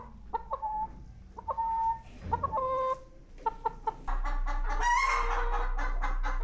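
Hens cluck in a back-garden paddock that holds about 40 or 50 egg-laying birds, giving a run of clear, pitched clucks and squawks that start spaced apart and grow into a busier, louder overlapping chorus.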